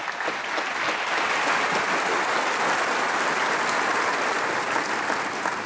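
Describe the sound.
A church audience applauds to welcome a pastor before he speaks, a dense, sustained wash of many hands clapping that stays steady and even for several seconds.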